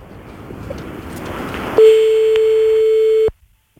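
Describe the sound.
A telephone ringback tone plays on an outgoing call waiting to be answered: one steady, mid-pitched beep lasting about a second and a half, preceded by soft hiss and followed by silence.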